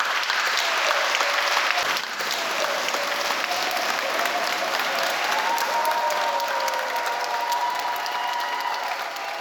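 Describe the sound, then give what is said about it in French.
An audience in a church gives a standing ovation, a thick, continuous roar of clapping that stays loud and steady for nearly ten seconds. “Et je vous demande, à vous le public, de vous joindre à nous pour faire une ovation à notre Sarah.”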